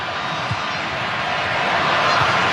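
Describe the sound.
Football crowd noise from Mexican fans at a Mexico versus Czechia match, a dense, steady roar of many voices that holds level and swells slightly toward the end.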